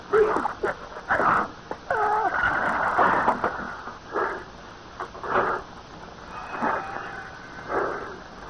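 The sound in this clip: A person breathing deeply from a handkerchief carrying an odor: many ragged, wheezing breaths mixed with strained, moan-like voiced sounds, rising and falling in uneven bursts throughout.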